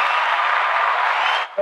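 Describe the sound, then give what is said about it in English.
A steady round of applause, dense and fairly loud, cuts off abruptly after about a second and a half, and a voice begins speaking right after. “Round of applause as ever.”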